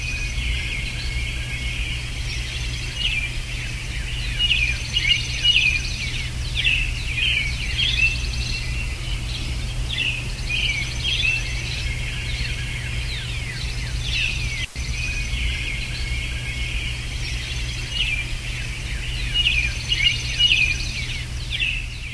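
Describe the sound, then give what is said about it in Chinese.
Birds sing outdoors at dawn on a summer morning around five, outside a house. Many overlapping chirps and trills sit over a constant shrill insect drone and a low steady hum, with no voices. “就是大自然和一些小动物啊小虫子的声音集合在一起，我觉得非常的美妙。”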